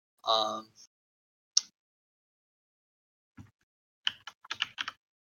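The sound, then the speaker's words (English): Typing on a computer keyboard while searching for games: a single tap, a pause, another soft tap, then a quick run of several keystrokes near the end, all fairly quiet, after a brief voice at the start. “I was going to type in 2019 games.”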